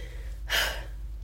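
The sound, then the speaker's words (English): A deep breath drawn in quickly before saying affirmations at a mirror: one short, sharp, airy intake that is moderately loud and stands alone against faint background hum. “i take a deep breath”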